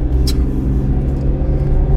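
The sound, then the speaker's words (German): Steady road rumble of a car driving through Ulfen: a continuous low engine and tyre drone that holds level throughout, with no voices. “Ah, oh, jetzt fahren wir durch Ulfen.”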